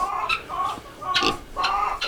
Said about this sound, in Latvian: Te ir Vietnamas punduru cūciņas.